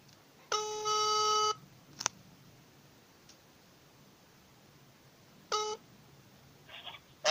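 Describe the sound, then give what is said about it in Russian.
Electronic telephone beeps as a call is placed: one long steady harmonic tone, a sharp click, then a second, much shorter beep, with faint higher chirps near the end over quiet line hiss. “давайте ему сейчас позвоним, посмотрим, что у меня получится.”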